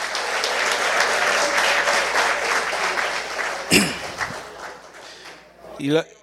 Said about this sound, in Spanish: Denle un aplauso al Señor, hermano. Denle un aplauso al Señor.